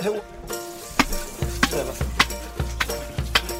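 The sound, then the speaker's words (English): Offal such as lungs and kidneys frying slowly in fat with garlic, chili pepper and a little wine: a steady sizzle broken by many sharp scraping knocks from stirring, keeping a fairly even rhythm. “all those good bits, the lungs, kidneys, they get cooked slowly in fat with garlic, chili pepper, little wine.”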